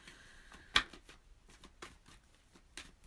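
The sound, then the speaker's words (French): A tarot card is drawn from the deck with a soft, papery snap, followed by a few faint card rustles and light handling sounds at a low level. “Attends, il reste la dernière carte, je vais la sortir comme ça, après ça, je vais avoir toute la vue d'ensemble.”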